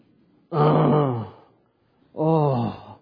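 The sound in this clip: A human voice imitates a groan during a sermon about giving. There are two drawn-out, low, voiced moans, each about a second long, separated by a short silence.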